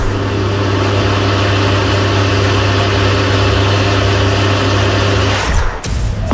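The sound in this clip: Steady mechanical drone of a running swimming-pool pump motor, a loud, unchanging low hum with strong tonal layers that holds for about five and a half seconds, then breaks off into a brief jumble of noise.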